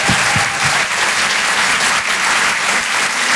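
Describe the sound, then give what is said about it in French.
An audience at a live stand-up comedy show in a Paris theatre applauds with dense, steady clapping that stays loud throughout. No one speaks over it. “Je vous demande de faire un maximum de bruit, s'il vous plaît, pour Donnell Jacksman.”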